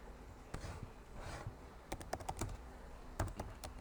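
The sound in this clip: Typing on a computer keyboard: faint, quick clicks of keys come in scattered single strokes at first, then denser irregular bursts of tapping toward the end.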